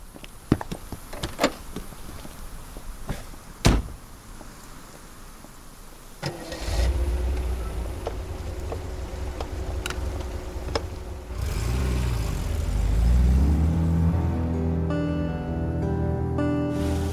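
A few clicks and knocks, then a car engine starts and runs at a steady idle before growing louder and rougher as the car pulls away and drives off.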